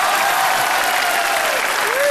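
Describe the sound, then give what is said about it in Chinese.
Loud, dense audience applause for a comedy duo on stage, continuous and even throughout. “观众怎么不能鼓掌呀、啊、我这刚要鼓掌，对不对？”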